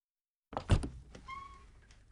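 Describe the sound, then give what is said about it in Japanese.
A room's entrance door is opened: a soft, dull thunk, then a faint, brief tonal creak, all fairly quiet. “あなたは誰だろうと思いながら部屋の入り口のドアを開ける。”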